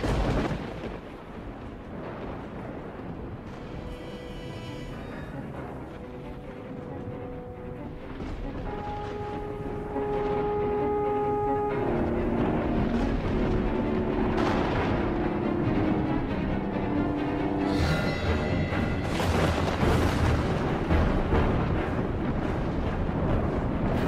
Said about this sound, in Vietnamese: Đúng lúc một tiếng sét chói lòa vụt lên, mọi thứ sáng rực. Con bé Mít đứng đó giữa nền trời sấm sét kinh hoàng.